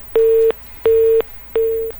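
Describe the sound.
A telephone busy tone sounds after a dropped call: three steady, mid-pitched beeps of equal length, separated by short silent gaps, loud and alone.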